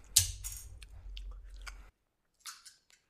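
Crunchy chewing of pomegranate seeds: several moist, crackling bites in an irregular rhythm, a short silent pause, then a couple more faint crunches.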